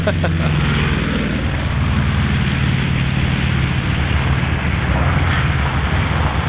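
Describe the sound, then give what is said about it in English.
A squadron of B-36 bomber aircraft passing over: a loud, continuous engine drone with a deep, rumbling low hum and a broad roar that stays steady throughout. “one of the sounds I loved as a kid was the sound of a squadron of B-36 bombers.”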